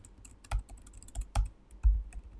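Fingers type on a computer keyboard in quick, irregular, faint clicks, with a few heavier key thumps scattered through the bursts.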